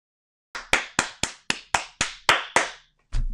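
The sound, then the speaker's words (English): Hands clapping: about nine sharp, bright claps in a steady, even rhythm, followed by a single duller, heavier sound at the end. “don't know what I'm clapping for, but applause for Pine Star.”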